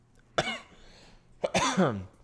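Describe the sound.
Someone with a dry throat gives two coughs: a short sharp one, then a longer, rougher cough that ends in a voiced throat-clear.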